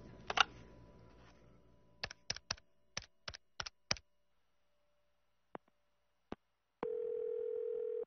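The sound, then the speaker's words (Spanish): A telephone handset is picked up in a hotel, giving a faint run of sharp clicks and taps followed by a few isolated clicks. A steady, continuous dial tone then starts and holds to the end. “Al regresar al Hotel Marriott, tomé el teléfono, dispuesto a solventar mis dudas de un plumazo.”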